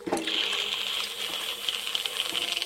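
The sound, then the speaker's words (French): A burning brand is dipped into water during a reenactment of ancient animal slaughter, giving a steady, bright sizzling hiss that lasts throughout, with small irregular crackling pops. “Passe-moi ce tison que je le trempe dans l'eau.”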